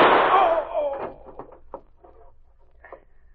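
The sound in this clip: A single gunshot in a radio drama cracks out sharply and then decays over about a second, followed by a few faint knocks.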